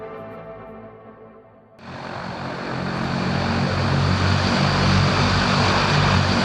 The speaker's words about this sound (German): Vielleicht haben Sie, habt ihr das Geräusch erkannt. Das ist das unverkennbare Dröhnen und Brummen der Triebwerke einer Transall.